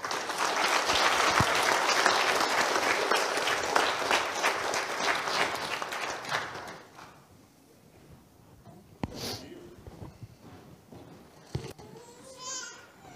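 A church audience applauding to welcome a newly baptized person: dense, sustained clapping for about six seconds that then dies away, leaving quieter scattered sounds and a few soft thumps.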